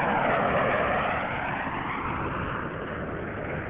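The Space Shuttle Atlantis touches down on its main and nose landing gear on runway 33 at Kennedy Space Center and deploys its drag chute, heard as a dense, steady roar that is loudest at first and eases slightly.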